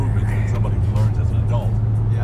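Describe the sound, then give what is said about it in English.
Steady low road hum from a car driving on a highway, with people talking over the engine and tire noise throughout. “we out here on Highway 5 on the way to LA”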